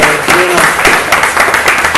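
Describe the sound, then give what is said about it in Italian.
Audience applause on a stage show for a very young performer, brisk clapping with voices and a brief cheering call mixed into it over two seconds. “Ragazzi, un applauso a questo giovanissimo...”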